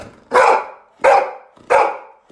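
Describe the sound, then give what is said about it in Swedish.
Happy dog barking: three loud, full-bodied barks at an even, unhurried rhythm, with a fourth cut off at the very end. No voices are heard. “Och Lovis är en väldigt glad hund, oftast kan jag själv intyga. Och hon låter så här när hon är glad.”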